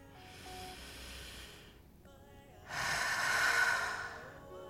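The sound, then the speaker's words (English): A person takes a deep breath: a soft, breathy stretch is followed by one long, airy inhale that swells loudly and then fades. “let's take a deep breath”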